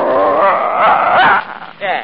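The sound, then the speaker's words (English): A small dog gives a continuous, strained vocalization with a growling, whining edge. It is loud and sustained, then dips briefly before rising again at the end. “I can't take no dog on board with me. Now, you Marine guys... Ah, yeah, no... sure you can. It's just a little dog.”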